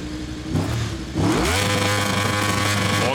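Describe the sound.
A motorcycle engine revving in a video game. The mid-pitched whir climbs sharply in pitch after about a second, then settles into a loud, steady drone, with no talk.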